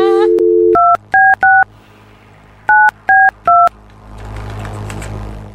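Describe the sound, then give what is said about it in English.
Telephone keypad dialing tones: a steady tone, then three quick beeps, a pause, and three more beeps, trailing into a low rushing hiss. “Oh, I forgot how many numbers I dialed here. Just start over. You can't press 5 and 4 together to make 9. You have to press 9.”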